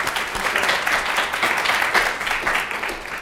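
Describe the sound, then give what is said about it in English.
An audience applauds to welcome a guest speaker, with steady, dense clapping from many hands that holds level and then tapers off. “So let's give a warm welcome to our guests.”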